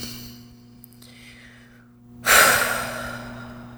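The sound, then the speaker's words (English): A deep breath: a soft, airy intake rising gently, then a sudden louder, long breathy exhale that slowly fades, with no talking. “Deep breath.”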